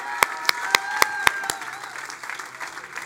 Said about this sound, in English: Come on, make some noise in the house. Let's give God some praise. Put your hands together.